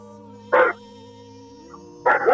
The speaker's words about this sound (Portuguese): Os cachorros latindo.